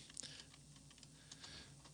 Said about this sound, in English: I'm trying to type at the same time here as talk to you